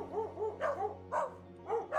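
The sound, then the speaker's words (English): A dog barks at a cottage: several short, sharp barks in an uneven run with brief gaps between them, moderately loud, over a steady low hum. “Hey, boy. Sit. Great pair of dogs you've got here”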